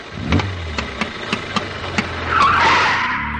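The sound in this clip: A Ford Model T starting and pulling away: a low engine drone carries a steady series of sharp, evenly spaced clicks and putts, then a louder rushing surge near the end.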